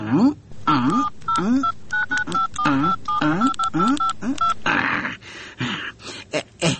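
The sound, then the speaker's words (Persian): Telephone keypad dialing: many short, clipped dual-tone beeps in a rapid, uneven sequence, layered over a wavering, whining voice-like sound. “تو باش که زنگ بزنم”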